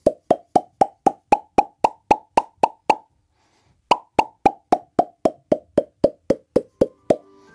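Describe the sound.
Mouth popping sounds played as a musical scale: two runs of many quick, hollow, evenly spaced plops, separated by a short pause. Each pop is crisp and fairly loud, heard alone without talk.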